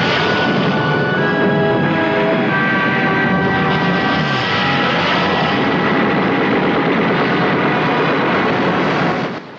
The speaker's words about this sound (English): Scott and Grant fly towards the sea, still dodging the bullets from the anti-aircraft guns.